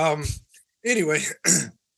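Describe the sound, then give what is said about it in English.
Throat clearing and coughing after hot chocolate went down someone's windpipe, in a few short, voiced, rasping bursts separated by brief pauses. “Excuse me. I drank some hot chocolate and went right down my windpipe.”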